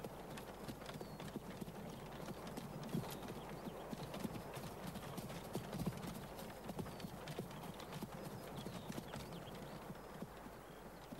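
Hooves clip-clop as a horse-drawn cart arrives in a village, with many hoof strikes in a steady, quick rhythm over a low continuous background, fairly quiet throughout.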